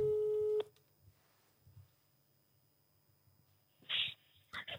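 A telephone ringing tone sounds while a call is placed: one short, steady, loud beep at the start. Near-silence follows, with faint low noises and a brief breathy burst near the end.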